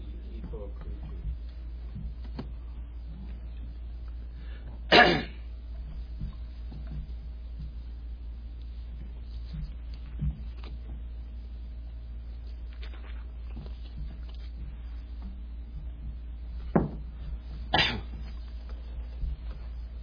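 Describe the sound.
A person with asthma coughs and clears their throat in a few short, sharp bursts, one near the start and two close together later on, over a low, steady hum.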